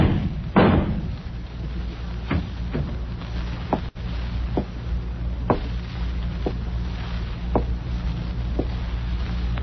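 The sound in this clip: Knocking on a door at the top of a flight of stairs: a few sharp, separate raps spread unevenly over steady low background noise, with a heavier thump near the start.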